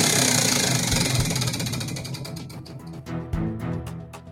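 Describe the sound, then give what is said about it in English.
Rapid ticking of a prize wheel being spun during a game segment. The clicks start fast and dense, then gradually slow and space out as the wheel winds down. The ticking is loud, with no talk over it. “spin that wheel, my friend. Here we go. This is going to be a good wheel.”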